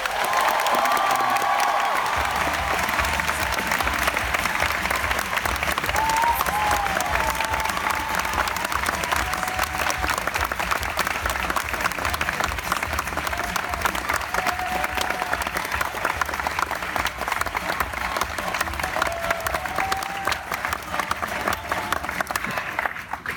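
A crowd applauds and cheers to welcome Whoopi Goldberg as a Disney legend at a Walt Disney Company honoring event, loud, dense clapping with shouts sustained for over twenty seconds.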